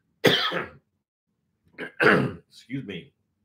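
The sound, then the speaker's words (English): A man coughing and clearing his throat as if something is caught in it: one harsh burst, a pause, then a cluster of rougher coughs. “Your guru's got something caught in his throat.”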